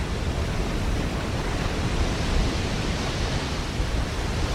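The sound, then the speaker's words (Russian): A large ocean wave rolling onto the shore, carrying swimming penguins, makes a steady, broad rushing roar of surf that stays even in loudness with no distinct crash. “Большая волна направляется на берег. В ней плывут пингвины.”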